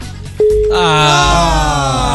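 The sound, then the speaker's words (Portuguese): A telephone rings during a radio call-in contest. A single loud, sustained tone starts abruptly and holds to the end, with a buzzy, harmonic-rich layer over it. “Primeiro toque já foi. Segundo toque. Final do telefone 6980. Atende o telefone. Terceiro toque”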